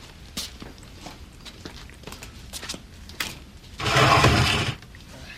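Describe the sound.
Footsteps pad down basement stairs as a few soft, scattered thuds and clicks. Near the end comes a short, louder burst of rushing noise, and no one speaks.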